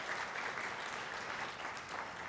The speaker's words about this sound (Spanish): Den un aplauso.